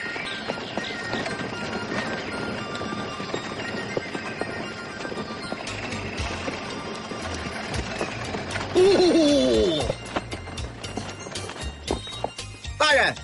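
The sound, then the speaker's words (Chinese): Horse hooves clip-clop as a horse-drawn carriage travels to Lingyan Mountain Temple in Suzhou, a quick, even patter running throughout, with voices and other sounds layered over it. “是， 马车直接前往灵岩山寺。”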